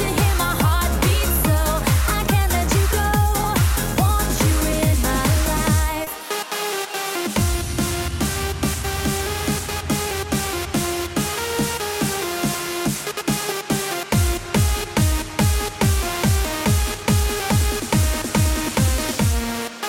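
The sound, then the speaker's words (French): A 2000s disco dance track plays with a pounding, steady beat and bright layered synth chords. The thumping kick drops out briefly about a third of the way in, then returns under the same sustained harmonies. “Ça, c'est vraiment un son disco que normalement on diffuse que le vendredi.”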